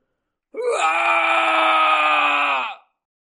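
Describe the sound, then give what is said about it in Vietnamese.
A terrified old man lets out a long, loud scream as he dies: one sustained, strained wail of about two seconds that holds a steady pitch, with no other sound around it. “Lão hoảng sợ kêu lớn”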